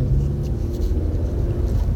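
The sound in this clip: Steady low rumble of a car driving on a road with a 50 km/h limit in Noord-Holland, an even, unbroken engine and road drone holding constant loudness throughout, with no voices.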